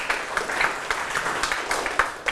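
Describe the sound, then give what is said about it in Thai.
Children clap in a classroom lesson after being praised by their teacher. The applause is a fairly faint, scattered patter of uneven claps, with a few sharper ones standing out. “เก่งมากปรบมือให้ทุกคนเลยครับลูก”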